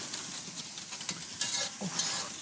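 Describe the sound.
Food is stirred and sautéed in a pan while cooking a soup. A faint, steady sizzle runs throughout, broken by soft scraping strokes of a spoon and a few light knocks.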